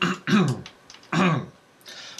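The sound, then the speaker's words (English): Someone clears their throat in two loud, rasping bursts separated by a short pause, with fainter breathy sounds in between. “I feel like you got a little something in your throat there.”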